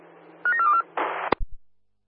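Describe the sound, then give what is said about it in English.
A telephone being dialled for a quick call: a few short beeps in quick succession, then a brief hissing burst and a couple of sharp clicks before silence. “I'm going to give you a quick phone call.”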